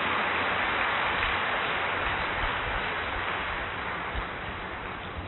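Dense, loud applause from an audience asked to stand and clap hard, a steady wash of many hands that thins slightly toward the end.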